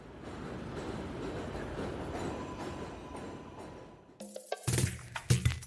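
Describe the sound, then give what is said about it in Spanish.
A train passes overhead near a station by a bakery: a steady, broad rumble with a faint high whine for about four seconds. Then come a few sharper, louder clacks and metallic knocks. “Cuando llegamos a la panadería cerca de la estación del tren, pasa un tren por encima y”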